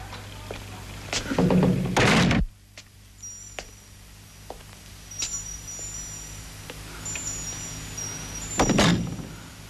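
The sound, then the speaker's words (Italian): A door at a main entrance gives a few dull thumps, with the loudest burst early on. A quiet stretch with faint ticks follows before another thud near the end. “La porta.”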